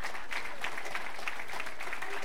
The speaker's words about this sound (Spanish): Tome su asiento, hermano, y le damos palmas de alabanza para el que vive.